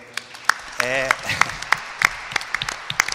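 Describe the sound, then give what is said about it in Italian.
Audience applause for a building's long-serving director: scattered, sharp individual claps land irregularly across three seconds, with a brief voice in the middle. “Credo che l'applauso più bello oggi debba essere per il direttore Pietro Dapassano”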